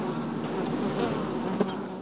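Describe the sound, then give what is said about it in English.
Bees buzz at a beehive as they bring in pollen from early-blooming maples, willows and dandelions, making a dense, continuous, even hum with no voices. “beehive is already bringing in pollen from the early maples that are blooming, the early willows, the early dandelions.”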